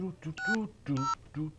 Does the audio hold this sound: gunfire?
no